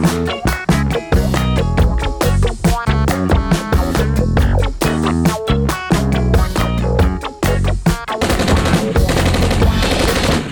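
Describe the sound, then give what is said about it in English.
Rifle gunfire sound effect: many loud, sharp shots crack in rapid, continuous bursts for about ten seconds, with no pauses long enough to separate the volleys. “Yes, the unmistakable rifles tell you it is time for rapid fire”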